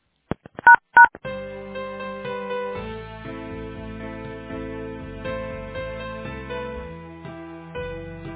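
Telephone keypad tones during a call transfer at a factory switchboard: a few short, sharp dialing beeps, then a long, steady, sustained tonal hold sound that continues to the end.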